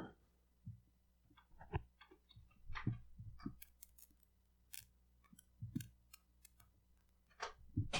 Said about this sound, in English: Sorry, I had to move a cord real fast. I was not paying attention.